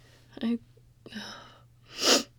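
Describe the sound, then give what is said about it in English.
A person sneezes: two short, breathy catches of breath lead up to one louder, explosive sneeze at the end, over a faint low hum. “Oh, please, God, don't sneeze. Oh, if you do, I never stop.”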